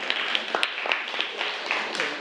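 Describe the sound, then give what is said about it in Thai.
Students clap for two classmates with light, quick, uneven clapping that stays faint, and some talk runs through it. “โอเคเอาปรบมือนะครับนักเรียนปรบมือให้เพื่อนทั้งสองคนหน่อยนะครับ”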